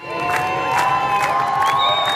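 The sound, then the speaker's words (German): Thousands of people cheer, shout and whoop in a roaring crowd as about twenty sailing boats leave the harbour of Barcelona, with chanting voices and some applause layered over a steady loud din. “Mit Trommeln, Applaus, Free Palestine und Gaza, du bist nicht allein rufen, verabschieden Tausende die etwa 20 Boote, die aus Barcelonas Hafen auslaufen.”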